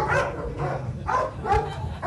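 Police dogs from a county sheriff's canine unit bark in several sharp, loud bursts, their yelping barks repeating in an uneven rhythm.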